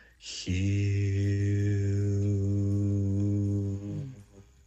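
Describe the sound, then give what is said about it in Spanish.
A voice chanting HU, an ancient name for God in Eckankar, as one long, low, steady held tone after a short breathy onset, sustained about three and a half seconds before tapering off. “Se llama el canto de Hu. La palabra Hu se escribe Hu. Se pronuncia Jiu. Suena así.”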